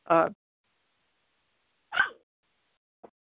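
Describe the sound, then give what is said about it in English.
A dog barks in a small apartment: three short, separate barks spaced about a second or more apart, the first loudest and the last brief and faint, with silence between. “I have to excuse the fact that my dog is barking here because she doesn't like me to be on the phone.”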